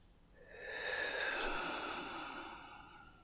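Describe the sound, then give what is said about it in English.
A single deep breath, drawn in and let out, rises into a soft airy rush and then tapers away quietly. “I need you to take a deep breath, okay? Just in. Out.”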